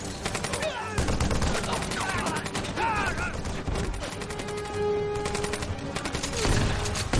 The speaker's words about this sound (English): Popping him off with a freaking shotgun.